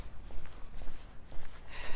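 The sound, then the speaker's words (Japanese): Footsteps of someone walking along a new path: soft, evenly paced steps at a steady walking rhythm, set in a constant wash of background noise. “完全にこれ新しい道を行ってるよ新しい道歩いてるわ皆さん”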